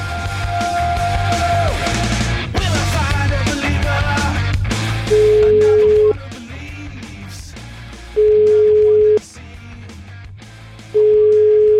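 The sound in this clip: Three steady ringback tones of an outgoing phone call, placed to a municipal police officer, each lasting about a second with roughly two-second pauses between them, sounding loud and clean after a busier stretch of other sound.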